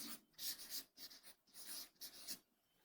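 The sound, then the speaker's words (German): Writing on a board: several short scratchy strokes come in separate bursts with brief pauses between them, quiet and alone without talk. “Traut sich keiner? Ich schreib's mal an.”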